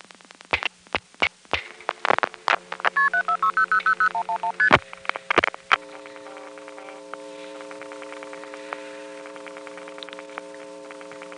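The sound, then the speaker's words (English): A telephone exchange NX1 sender pulsing out dialed digits, heard as a quick run of clicks and short stepped tone bursts over a low hum, then giving way to steady sustained tones with faint ticks. “You'll hear the other NX1 pulsing out all the digits”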